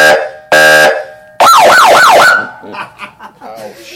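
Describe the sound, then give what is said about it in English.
A police Harley-Davidson motorcycle siren sounds two short, steady, loud tone blasts, then a fast, warbling wail that sweeps up and down before dying away into softer, scattered sounds. “The sound that the Harley Davidson makes is...”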